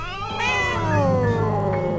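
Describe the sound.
Cats meowing in an old woman's apartment full of cats: one long, loud, drawn-out meow that slides gradually downward in pitch, heard alone.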